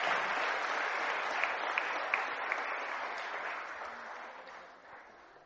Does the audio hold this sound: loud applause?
yes